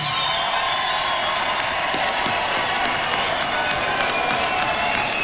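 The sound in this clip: An audience applauds at a community hall event in Borgarfjörður eystri, producing a dense, even wash of many hands clapping at steady loudness.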